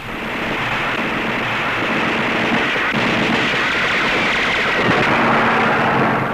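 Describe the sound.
Loud, continuous barrage of gunfire as aircraft strafe a train in a film scene: a dense, unbroken roar of crackling noise with no separate shots standing out, holding steady at high volume throughout.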